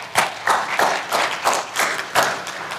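Clapping from a church audience welcoming a family to the front at a baby dedication service: steady, evenly spaced claps that repeat in a regular rhythm, with no talk over them.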